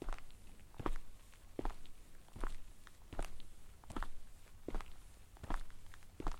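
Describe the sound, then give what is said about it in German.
Footsteps walking straight ahead over cobblestones on a street, a steady, even stride of crisp scuffing steps about once per second, fairly faint over a low background hiss. “aber wir gehen trotzdem weiter geradeaus über die Pflastersteine.”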